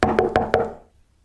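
Knocking on the front door of a house: four sharp, evenly spaced knocks, fairly loud, then a brief fade to quiet.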